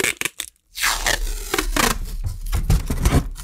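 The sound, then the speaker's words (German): Adhesive packing tape pulled off its roll: a few short crackles, then a loud, continuous ripping tear lasting about three seconds. “Ich kann das Klebeband sogar wieder zurück auf die Rolle kleben und dann wieder abziehen.”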